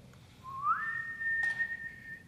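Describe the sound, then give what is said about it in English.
A long, slow whistle given as a call: a single clear tone that glides upward, then holds steady at a higher pitch for over a second before stopping. “gave a long, slow whistle of a call”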